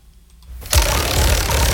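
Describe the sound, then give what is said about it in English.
A prize wheel spun for a call-in discount gives a loud, rapid, continuous clattering ratchet that starts abruptly after a short near-silence and holds steady to the end. “Let's spin the wheel.”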